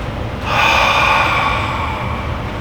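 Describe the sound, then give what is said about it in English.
A voice imitates breathing out on someone: a single long, airy exhale that starts abruptly and trails off over about two seconds, with no words spoken. “So He literally breathes on them. They're saying here that Jesus literally did that. He went like this.”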